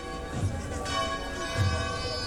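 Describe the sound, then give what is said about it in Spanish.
Church bells peal during a religious procession as a monstrance is carried through the streets toward a cathedral square. Their overlapping ringing tones hold steady and fairly quiet throughout, with no clear breaks. “Vemos también cómo se escucha el replique de las campanas,”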